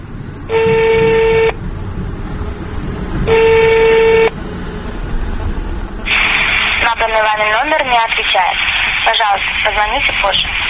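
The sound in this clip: Two long, steady electronic phone tones ring out about two seconds apart as a telephone number is dialed, followed by continuous voices.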